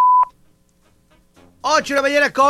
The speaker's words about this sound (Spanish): Hola, ¿cómo estás? Deja tu mensaje después del tono.